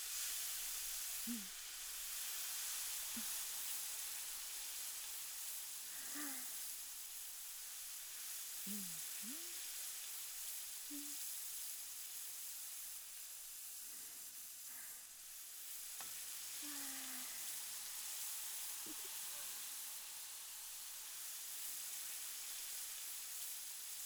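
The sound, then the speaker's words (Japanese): A turnip sizzles as it grills, giving off a steady, faint frying hiss that carries on unbroken throughout. “じゃあうちの変わり種商品、カブを焼きますよ。”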